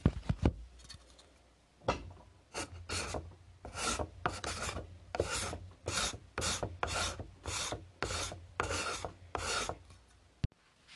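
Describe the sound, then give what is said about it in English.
A card scraper rasps across wood in many quick, regular strokes, each a short, dry scratchy burst, fairly quiet and alone. The scraper is not yet tuned and raises dust more than shavings. “So I'll test the card scraper, and then we'll see if I'm gonna have to tune this up.”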